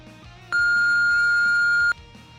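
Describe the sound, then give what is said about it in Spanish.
A telephone answering machine gives its beep before a message is recorded: a single loud, steady, high electronic tone lasting over a second, set against a faint background. “deja tu mensaje después de la señal.”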